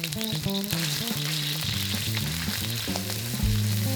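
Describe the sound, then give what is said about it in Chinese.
Pork mince stir-fries in a wok of oil heated until nearly smoking, as the base for Sichuan mapo tofu. A loud, steady sizzle crackles continuously, with scraping stir noises. “现在可以拿出你的炒锅，加热后淋上一些油，油快开始冒烟时放入猪脚肉，然后快速的把它炒散。”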